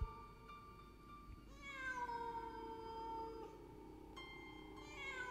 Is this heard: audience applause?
no

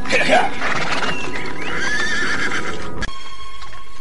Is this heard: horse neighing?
yes

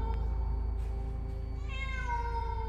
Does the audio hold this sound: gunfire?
no

